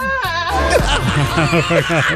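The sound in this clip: Goats screaming in a song: a rapid series of loud, quavering, nasal bleats repeating in a steady rhythm over the track, following a sustained voiced tone at the start.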